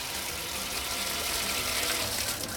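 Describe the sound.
Water running from a historic public fountain in Ortaköy, Istanbul, a steady broad rushing and splashing that stays even and fairly loud throughout, with no voices.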